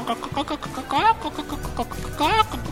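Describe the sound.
A human voice imitates a chicken clucking, as if from a man dressed with a beak and chicken feet: short choppy clucks broken by two drawn-out squawking calls, moderately loud and delivered alone.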